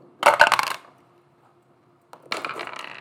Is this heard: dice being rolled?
yes

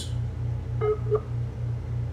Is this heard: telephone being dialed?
yes

